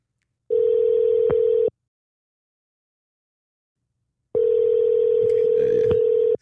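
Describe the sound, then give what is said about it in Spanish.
Ringback tone of an outgoing telephone call: two long, steady mid-pitched rings separated by a few seconds of silence, with faint extra noise during the second ring. “Está dando tono.”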